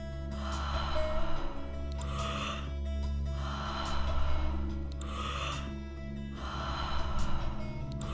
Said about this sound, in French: Faites de belles respirations circulaires et profondes.